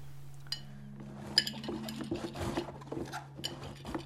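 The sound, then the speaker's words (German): A knife slices oak leaf lettuce into strips in faint, irregular light taps and soft cuts over a low, steady hum. “Ich werde jetzt den Eichelblattsalat in schöne Streifen schneiden.”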